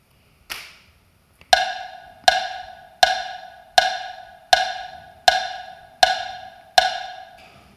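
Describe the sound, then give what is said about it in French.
A metronome ticks: one opening tick, a short pause, then eight evenly spaced, bright, pitched clicks, each ringing briefly before it fades, at a steady moderate tempo with no other sound. “je vais vous faire écouter une métronome.”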